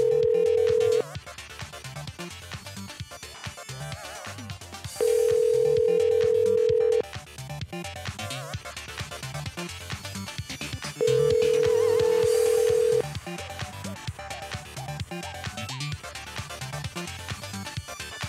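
A telephone call rings through to voicemail, with three long, steady ringing tones of about two seconds each separated by several seconds of gap. The first ring is cut short at the start, and a continuous busy background sound runs underneath.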